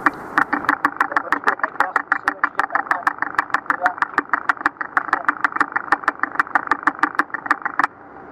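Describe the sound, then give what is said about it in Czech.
A small engine runs at raised revs, a clattering stream of sharp, evenly spaced knocks at a quick, steady pace that cuts off abruptly just before the end. “Tak jsem zvýšil otáčky.”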